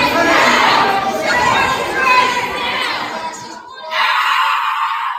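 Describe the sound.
Protesters react to a bill being passed with a loud, continuous mass of screaming, shouting and chatter, briefly dipping before surging again at full strength.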